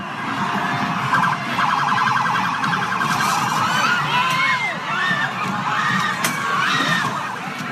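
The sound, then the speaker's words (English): Protesters shout and scream in a dense crowd as a New York City police car drives into them at a Black Lives Matter protest, with wailing siren and alarm tones over a continuous roar. “That was the sound of a New York City police car ramming into Black Lives Matter protesters in New York.”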